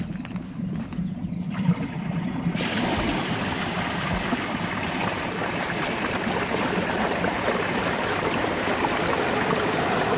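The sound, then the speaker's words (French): Wastewater discharge flowing in as a broad, rushing stream of water that grows louder and brighter early on, then holds a steady, full roar with no voices. “Pendant quelques secondes, on a entendu l'eau arriver petit à petit, puis de plus en plus fort.”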